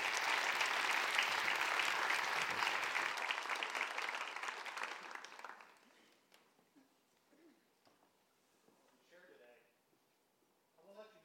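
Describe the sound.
An audience applauds to welcome guests onto the stage, loud sustained clapping for about five seconds that then fades away into near quiet, with faint talk afterward.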